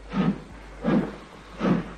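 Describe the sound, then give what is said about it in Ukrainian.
A train starting to move in winter 1945: three slow, evenly spaced hissing chuffs rise and fade over a low, steady hum. No voices are heard. “Поїзд рушає!”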